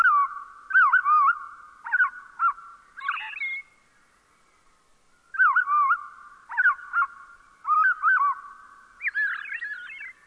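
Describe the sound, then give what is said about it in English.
An American robin's evening song is slowed to half speed, heard as several bursts of low, slurred, warbling whistled phrases with short gaps and one longer silence midway. “Let's listen more closely to the fine detail of a robin's evening song by slowing down the same notes to half normal speed.”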